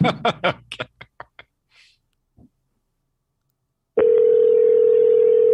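A telephone's steady, loud tone, heard while dialing a number, starts about two-thirds of the way through and holds unbroken to the end, after a few short bursts and soft taps that fade into silence.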